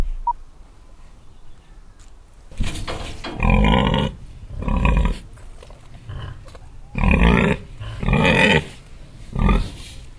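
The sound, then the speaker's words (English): A pig grunts on a farm in Warwickshire, giving several loud, rough, low grunting bursts spaced about a second apart after a quiet opening. No one talks over them. “Mrs. Pig and Bernard.”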